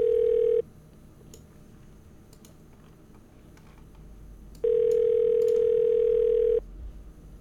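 A phone ringback tone while calling a number that goes unanswered: two steady, mid-pitched tones separated by a long quiet gap, the second one longer.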